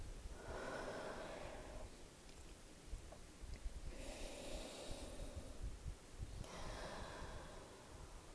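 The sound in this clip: A person taking deep breaths, a few slow, soft, airy inhales and exhales with quiet pauses between them, faint and alone.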